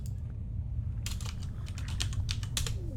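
Rapid typing on a computer keyboard, a dense run of crisp clicking keystrokes that begins about a second in and continues steadily to the end over a low constant hum.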